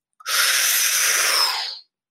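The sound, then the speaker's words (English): One long, airy breath during a guided breathwork session, loud and hissing, starting abruptly, holding steady for about a second and a half, then tapering off into silence. “inhale, exhale, inhale. Exhale, and again.”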